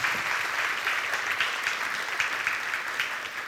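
Applause from an audience welcoming a guest teacher at a morning gathering: steady, even clapping from many hands, moderately loud and sustained throughout without a break.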